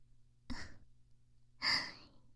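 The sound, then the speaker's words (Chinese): Two soft breaths are exhaled close to the ear in an ASMR setting, the second longer and slightly stronger, with near silence between them. “耳朵能感受到我的呼吸吗？想让这种感觉留得更久一点。”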